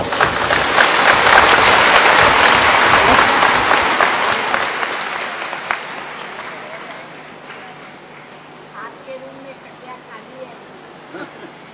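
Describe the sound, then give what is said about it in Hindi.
A Hindi-speaking audience claps together: loud, dense applause for several seconds that gradually thins out and fades as people start talking. “तो भाई ताली तो बजाओ”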